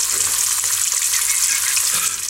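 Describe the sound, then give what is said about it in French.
Cock's combs fry in a small pan with a steady, loud, hissing sizzle that holds at an even level throughout, with no voices. “Ah, je vous le mets sur la poêle. Mais une petite, eh, c'est une petite poêle”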